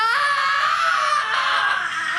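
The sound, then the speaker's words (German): A newborn baby cries in a delivery room, one sustained, high-pitched, strained wail that holds loud and steady for about two seconds. “Da hörst du, das ist schon das fünfte Baby.”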